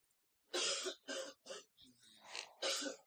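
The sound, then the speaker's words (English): A person coughs during a game session: several harsh, breathy bursts in quick succession, loud and spaced by short gaps, with one lower, rougher burst in the middle. “You're not going to cough all day today, are you? I'm trying not to. I mean, I'm sucking on a cough drop right now.”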